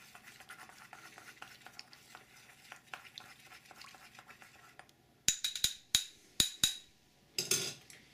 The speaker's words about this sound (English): Take your old famous chopstick. Mix it up.